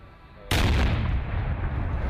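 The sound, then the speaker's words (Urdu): Hand grenades recovered in a building search during a security operation are destroyed in a sudden loud blast, followed by a dense roaring rumble that holds on and fades only slightly. “یہ دھماکے عمارت میں operation اور search کے بعد ملنے والے دستی بموں کا ہے، جنہیں تلف کیا گیا ہے۔”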